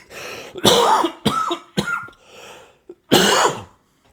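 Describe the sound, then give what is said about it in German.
A few harsh bursts of coughing and throat clearing from a man, coming in uneven clusters with short gaps and one faint catch between them, with no talk over them. “So ein Huster hier. Aber ich schneide es nicht weg.”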